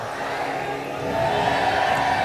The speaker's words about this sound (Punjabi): ਜੈਕਾਰਾ ਬੜਾ ਚਾਹੀਦਾ, ਵਾਹਿਗੁਰੂ ਜੀ ਕਾ ਖਾਲਸਾ।